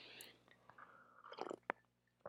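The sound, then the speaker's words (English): Water being sipped: faint, soft wet mouth sounds and a few brief slurps and swallows, heard alone without talk. “Let me take a sip of water here.”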